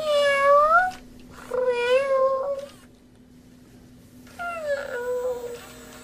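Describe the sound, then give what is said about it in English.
A battery-powered robotic stuffed cat meows three times, each a loud, drawn-out call falling in pitch, separated by pauses over a faint steady electronic hum. “now that's the sound of a robot cat”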